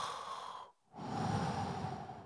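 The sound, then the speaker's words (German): A deep breath sounds as two long, breathy rushes of air separated by a brief silent pause, the second longer and fuller. No talking is heard. “Männer, noch ein tiefer Atemzug”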